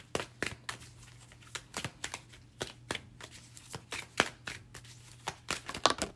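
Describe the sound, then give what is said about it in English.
Oracle cards are shuffled and drawn from a deck during a card reading. Many crisp, irregular snaps and slaps of the cards come in quick succession, fairly faint, with no talk. “Today, I'm using my Morgan Greer, and then we'll pull a couple of the tea leaf oracle cards.”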